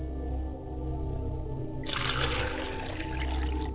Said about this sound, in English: so I must wash my face and hand. As I wash my face and hand,